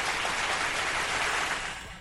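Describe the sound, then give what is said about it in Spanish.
Steady, dense applause from an audience holds at an even, fairly loud level for about two seconds. It thins slightly at the very end. “Un aplauso para las sabias palabras de la mami de Iron Soul.”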